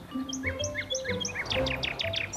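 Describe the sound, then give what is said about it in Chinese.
Agitated birds calling urgently in the wild during a field survey, a run of bright, high chirps that come faster and more crowded in the second half, over a faint low background. “这个声音，鸟儿好像很着急，快去看看。”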